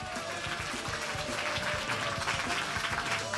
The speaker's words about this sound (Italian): Intanto vi chiedo subito un grande applauso